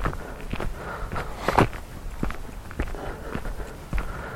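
Footsteps of someone walking up a hill make a steady series of soft, crunching treads at an even walking pace, with one heavier step standing out near the middle.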